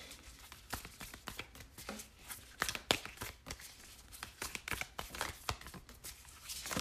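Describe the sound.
Tarot cards shuffled and drawn from the deck, heard as faint, papery rustles and crisp snaps in irregular bursts.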